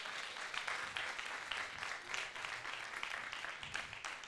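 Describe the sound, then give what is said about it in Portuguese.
Applause for a young man at an event: steady, dense clapping from a crowd fills the whole stretch at an even level, with no pauses. “Palmas para este jovem.”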